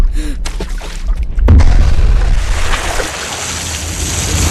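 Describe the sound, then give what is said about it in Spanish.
A grenade going off in a swimming pool: a sudden heavy boom about a third of the way in, followed by a sustained loud rushing wash of churning water. “¡Imlay! ¡Sargento! ¡Suelta una granada en la piscina!”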